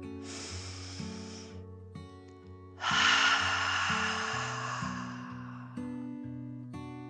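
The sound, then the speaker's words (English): A deep dragon breath in and out: two long, airy, hissing rushes, the second louder and longer, over a soft, stepping melodic backing. “Feeling frustrated, Mike took a deep dragon breath in and out.”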